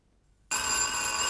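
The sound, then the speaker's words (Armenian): A telephone rings. After a moment of silence, a bright, steady ringing tone starts abruptly and holds at an even level to the end. “Սա ինչ է, զանգ, հա, զանգ”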